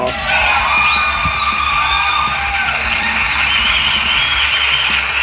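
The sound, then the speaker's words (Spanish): A studio audience cheers and whoops loudly and steadily throughout, with shouts and yells layered over a dense crowd roar. “Para que vean que tenemos público, pues, presente.”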